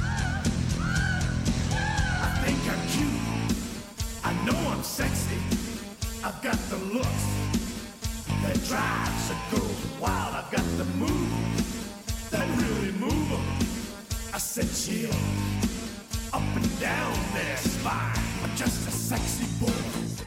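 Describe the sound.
A woman's squealing vocal inside a wrestler's entrance theme song: high, yelping cries over loud, dense music with a driving beat that runs throughout.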